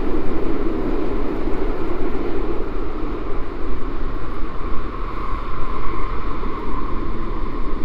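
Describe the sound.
A train arriving at a station: a loud, continuous, steady rumble with a broad roar and no pauses, heard alone with no voices.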